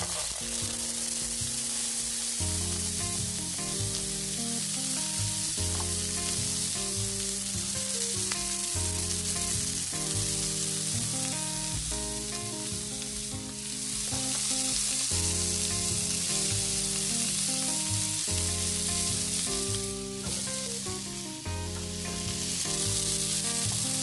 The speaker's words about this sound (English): We're gonna add the garbanzo beans, and then we're also going to add the sausage.